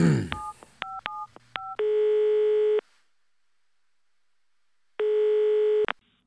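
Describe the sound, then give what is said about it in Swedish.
Someone dials a telephone call: several short two-tone keypad beeps sound in quick succession, then two long steady electronic tones are separated by a stretch of silence. “Vi öppnar dörren här. Hon kommer inte. Jag måste ringa henne.”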